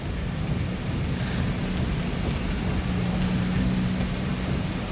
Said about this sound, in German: Der Sturm ist so stark, dass er den Wagen fast an der Straße weht.